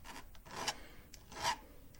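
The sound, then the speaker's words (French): A metal file rasps the ends of a jewellery wire flat, a few quiet scraping strokes in an uneven back-and-forth rhythm. “il faut que je les lime vraiment bien à plat. Donc, je les lime”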